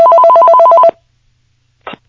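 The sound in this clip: An incoming call sets a telephone ringing in one loud, rapid warbling trill that lasts about a second and then cuts off to silence.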